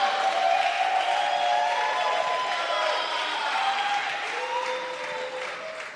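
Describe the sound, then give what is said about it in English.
A church audience applauds to welcome a speaker: steady, dense clapping with a faint crowd murmur, holding evenly before slowly tapering off. “Let's put our hands together and welcome our sister, Lady Reverend Anna, to bring us a wonderful testimony.”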